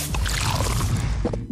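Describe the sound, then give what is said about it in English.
Fizzing rush of light beer pouring from an opened 500ml can, a steady foamy hiss that runs the whole time with no voices. “That is the sound of the new 500ml Castle Light can, turning life light side up.”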